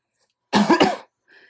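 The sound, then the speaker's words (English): A single cough from a person who is unwell: one loud, harsh burst with a couple of quick pulses, alone, followed by a faint trailing sound. “sorry for that cough”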